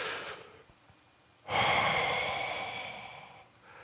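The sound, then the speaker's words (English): A deep breath in and out: a faint, soft inhale, a pause, then a long, loud, airy exhale lasting about two seconds that slowly fades, with another breath just beginning at the end. “take a breath with me and inhale in and a breath out on the count of three.”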